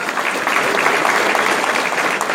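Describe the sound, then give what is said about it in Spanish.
Audience applause, a dense steady patter of clapping hands that holds at an even loudness throughout. “Un aplauso para Lucas”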